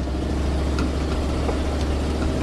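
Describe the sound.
Inside a 1984 truck with about 500,000 miles on it, driving a route through tight streets, the engine gives off a continuous loud, low rumbling drone with broad noise and no distinct revs.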